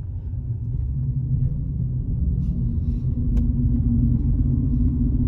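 A car being driven gives off a steady, loud, low engine and road rumble that continues without change throughout, with no talk over it.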